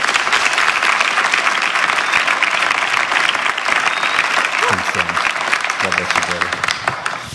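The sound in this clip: Church audience applauding to welcome a speaker: loud, dense clapping throughout, with a few voices calling out near the end.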